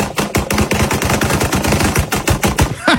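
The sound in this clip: Rapid gunfire from a firearm in a played video, a dense stream of many sharp shots in quick bursts that runs loud and steady throughout.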